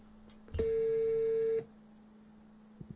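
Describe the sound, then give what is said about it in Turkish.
Ringing of an unanswered WhatsApp video call: a single steady electronic tone lasts about a second, then cuts off, leaving a faint low hum. “WhatsApp'tan görüntülü arıyorum, açmıyorsun.”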